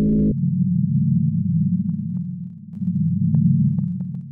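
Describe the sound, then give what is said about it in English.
A mysterious low hum reported around the world drones as a loud, steady, low-pitched tone for several seconds, dipping slightly midway, with faint scattered ticks and no voices. “the weird hum that's been happening all around the world.”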